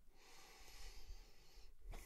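A deep breath drawn by a man preparing himself: a long, faint, airy inhale lasting well over a second, followed by a short pause and a sharper burst of breath at the end.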